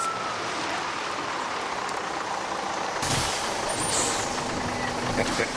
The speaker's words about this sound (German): Das ist der Linienbus hier, der hält.